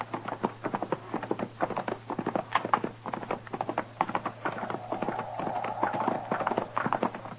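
Horses' hooves clip-clop steadily as riders ride over, a quick and even run of many hoofbeats that continues for the whole stretch at moderate loudness.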